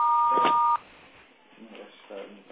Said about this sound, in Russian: Вас приветствует автоответчик. Оставьте сообщение после звукового сигнала.